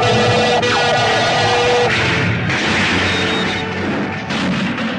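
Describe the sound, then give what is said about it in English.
Starship phaser weapons firing at an enemy vessel during a heavy attack: a dense, loud, continuous wash of electronic energy-weapon whine and rumbling blasts, with a brief swooping tone early on, sustained throughout without pause. “The Starship Enterprise is under heavy attack by an enemy vessel. Phasers, fire, point blank.”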